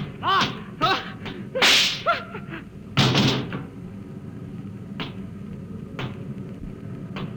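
A gunshot in a radio drama rings out as one loud, sharp crack, set among a few lighter thuds and knocks before and after.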